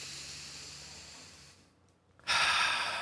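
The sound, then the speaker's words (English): A deep breath taken during a tapping relaxation exercise, heard alone: faint airy background, a brief near-silent lull, then a loud, sustained, hissing rush of air. “Just take a nice big deep breath for me.”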